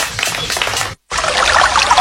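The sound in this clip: Water, bottled Alpes water from Córdoba, pours and splashes loudly. The gushing stops for a brief moment of silence midway, then resumes just as strongly.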